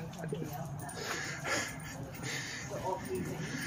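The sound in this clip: Three dogs being walked through a narrow passage about a meter wide pant and snort softly beneath steady conversation between people.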